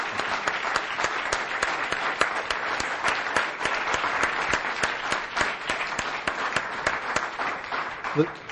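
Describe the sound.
Sustained audience applause at a club thanking Sir Ken Robinson after his talk, dense steady clapping that continues without a break.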